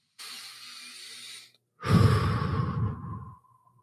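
A person takes one big breath in through the nose, a soft airy hiss lasting over a second, then after a brief pause lets out a long, louder, rougher exhale that tapers off.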